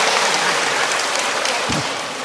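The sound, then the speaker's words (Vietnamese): A church audience gives a round of applause welcoming parishioners of Châu Bình, a thick, steady wash of many hands clapping at even loudness that eases slightly at the end. “Rồi Châu Bình, một tràng pháo tay thật lớn thưa anh chị em, chúng ta chào đón nhau.”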